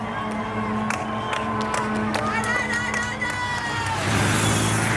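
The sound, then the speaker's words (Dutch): A crowd cheering along the roadside at a Tour de France cycling stage: a dense, continuous roar of voices and whoops that swells louder toward the end. “Daar aan de andere kant van de bocht zwelt het gejuich aan.”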